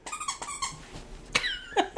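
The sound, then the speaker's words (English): A dog gives a few short, high-pitched whines and yelps, one sliding down in pitch, with sharper squeaky cries near the end. “That was also a dog.”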